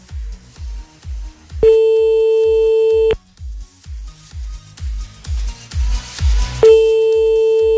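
A telephone line rings while a listener is called back: two long, steady ringback tones sound a few seconds apart over a thumping rhythmic beat.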